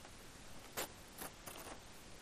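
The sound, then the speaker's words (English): A paper card is torn along a perforated line in a church, giving a few short, quiet ripping bursts separated by brief pauses. “And I would like you to tear it along the perforated line, if you will.”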